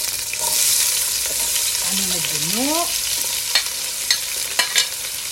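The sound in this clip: Onions frying in hot oil give a steady, bright sizzling hiss with a few sharp crackles toward the end and a brief rising tonal sweep partway through.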